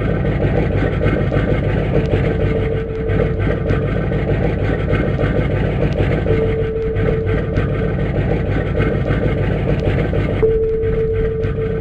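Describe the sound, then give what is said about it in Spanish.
A submarine engine running badly makes a low, steady, rumbling drone that never stops, while a thin tonal whine comes and goes above it several times. No voices are heard. “motor deste submarino cada día vai peor.”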